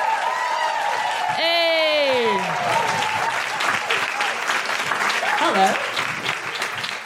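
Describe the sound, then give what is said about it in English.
Audience applause and cheering welcome a guest to the mic in a radio studio: dense, steady clapping throughout, with a whooping cheer early on and voices over the noise. “Put your hands together and make an incredible woohooing noises for the wonderful Gemma Bradley!”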